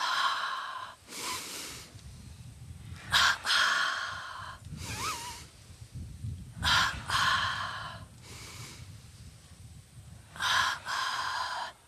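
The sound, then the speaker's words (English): Deep breathing exercise with double breaths: forceful, airy inhales and exhales in quick paired bursts, repeated several times with quieter pauses between, with no talking. “And let's do five of the deep breathing exercises, double breath. Fill yourself with positive energy.”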